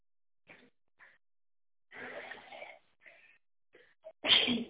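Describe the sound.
A single loud, explosive sneeze bursts out at the very end of a phone call to a company line, after a few faint, brief sounds.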